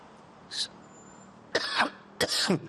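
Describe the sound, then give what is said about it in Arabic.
Three coughs from a person ill with a cough lasting several days: a short first one, then two harsher and longer bursts, with quiet between them. “الكحة عندك زيد عن اليومين اللي راح.”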